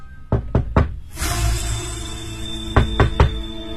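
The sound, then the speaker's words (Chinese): Knocking on an apartment door in a crowded residential building, in two quick bursts of three sharp, hollow raps separated by a pause. “苗振正在一家一家地敲门询问”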